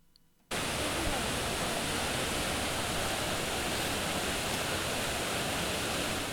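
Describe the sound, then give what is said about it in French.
Water splashing from a famous fountain in Rome: a dense, steady rushing hiss that cuts in abruptly after a brief quiet moment and stays constant and loud throughout. “C'est encore de l'eau. Une fontaine extrêmement célèbre. C'est la fontaine de Trevi à Rome.”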